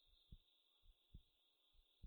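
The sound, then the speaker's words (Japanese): A heartbeat is heard close against the ear and cheek. Three soft, low double thumps fall in a slow, even rhythm, with a thin, steady high tone running underneath throughout. “私の鼓動がお兄様のお耳とほっぺに伝わって、私のリズムがお兄様のリズムになります。”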